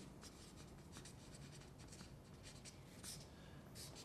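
Scratchy writing on a board: a steady run of short rubbing scrapes with a few brighter stroke accents, faint and continuous, with no voices.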